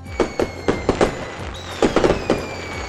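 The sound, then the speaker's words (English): Fireworks set off for Guy Fawkes Night in Britain, crackling and banging in many sharp bursts, with a thin, steady, high whistling tone running beneath. “as Britain prepares to celebrate Guy Fawkes Night, we'll light the fuse and stand well back as we explore the international history of fireworks”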